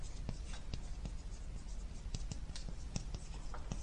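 Writing on a board: many quick scratchy strokes and light taps repeat at a steady, busy pace, fairly faint and continuous throughout.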